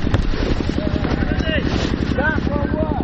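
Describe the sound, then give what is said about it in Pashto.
An old tak-tak engine or mill machine runs to light a stadium, giving off a rapid, steady chugging throb with wind buffeting, while people talk over it. “او د لوبغالي د رڼا کولو دپاره هغه پخوانی ټک ټاک یا هم د ژرندې ماشین چالان دي، او لوبغاړي ته یې رڼا پرې برابره کړې ده.”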